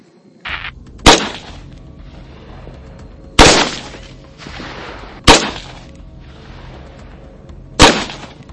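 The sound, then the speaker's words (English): Loud gunfire from an M4, an AR-15 style rifle, fired as four sharp single shots at uneven intervals, each a hard crack with a brief ringing tail, plus a softer short burst just before the first shot. “It's one of my favorite guns. The AR-15 or its equivalent. Some equivalent here. Yep, M4. Yep. All right, buddy, we'll let her rip.”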